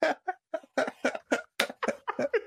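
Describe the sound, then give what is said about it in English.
A person caught in a coughing fit, many short, rapid, voiced bursts in quick succession with brief gaps, some edging toward laughter, fairly loud and alone. “Can't stop coughing.”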